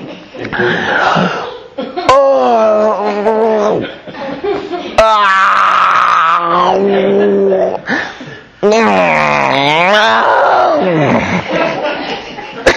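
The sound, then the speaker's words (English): Human groaning: drawn-out, voiced moans with wavering pitch, several in a row and fairly loud, with brief breaks between them. “all that groaning, you know. I know the Holy Ghost takes up in groanings within us, but this ain't the Holy Ghost here.”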